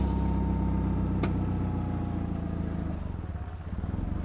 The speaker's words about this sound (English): I drive up to a parking lot on the outskirts of Sofia in front of a hardware superstore.